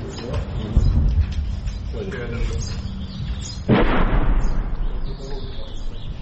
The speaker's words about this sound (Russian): Российская артиллерия дает так называемую ответку.